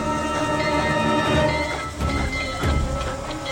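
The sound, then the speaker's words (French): A train carriage travels along rails with a continuous loud rumble and rattle. The noise holds steady, with slight surges in intensity. No voices are heard. “ils sautent dans le wagon qui les emporte vers la brillante capitale de l'Angleterre.”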